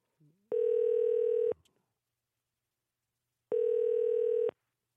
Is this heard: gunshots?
no